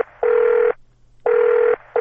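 Ringback tone of a phone call being placed: loud bursts of a steady electronic tone, each about half a second long, repeat with short silent pauses between them and no voices.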